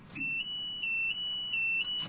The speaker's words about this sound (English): it might have something to do with that alarm that's going off. Let's see if that alarm is still sounding.